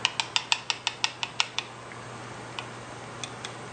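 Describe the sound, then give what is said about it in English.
Quick, even clinks from mixing four tablespoons each of ketchup and mayonnaise into a sauce: about ten rapid taps in a steady rhythm, then a pause and a few scattered, quieter clicks. “add 4 tablespoons of ketchup. Gonna mix it and make it a nice sauce.”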